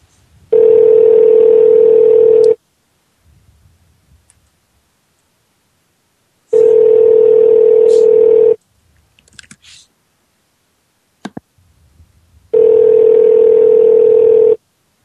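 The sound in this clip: Ringback tone of an outgoing phone call that goes unanswered: three steady, mid-pitched tones of about two seconds each, separated by roughly four-second silences that hold only faint clicks and rustles.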